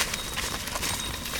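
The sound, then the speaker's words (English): A small herd of goats runs along the main street of a West Bank village, their hooves making a dense, continuous clatter. The quick patter stays at an even loudness for the whole moment. “A small herd of goats runs through the main street of Ta'amra.”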